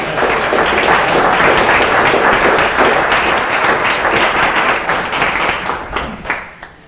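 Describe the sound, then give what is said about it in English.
Audience applause after a presentation: dense, loud clapping that holds steady for several seconds before thinning out and fading at the end. “Before we adjourn, I think we should really give a round of applause for the presentation today by Norma.”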